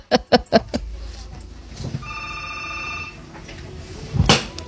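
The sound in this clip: A telephone rings with an incoming call in one steady electronic ring lasting about a second. A few sharp clicks come before it, and a brief loud burst follows near the end.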